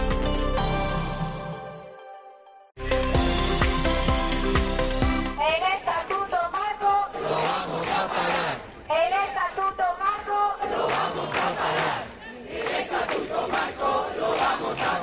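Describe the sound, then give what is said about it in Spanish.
A loud crowd of doctors protests outside a hospital in Vigo, chanting in rhythmic bursts with many voices together, after a brief opening of music. “Este era el sonido de la concentración de los médicos que esta mañana se manifestaron a las puertas del Álvaro Cunqueiro de Vigo”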